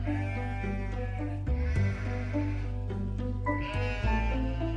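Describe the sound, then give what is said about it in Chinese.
A flock of sheep being driven by a herder bleats repeatedly, the wavering cries overlapping above a steady low drone. “有个外地人赶着一群羊经过石冈”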